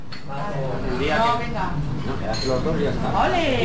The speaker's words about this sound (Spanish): Comienzo del día en una cafetería de Logroño.